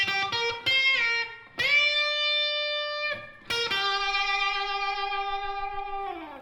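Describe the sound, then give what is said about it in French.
Guitar in standard tuning playing string bends: a bend of one tone followed by a bend of two tones, each note rising in pitch and then ringing sustained after a few quick picked notes, with no voices. “avec un bend d'un ton qui va être suivi d'un bend de deux tons.”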